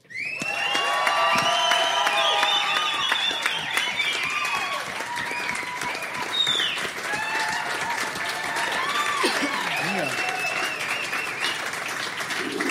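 An audience in Calgary breaks into loud, sustained applause with cheering and whoops to welcome a new guest, and the clapping holds steady throughout.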